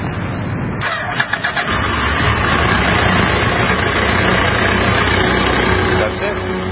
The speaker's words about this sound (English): It turns over, but it doesn't stop. But the RFID reader antenna is here, so when I authenticate, the bike powers up.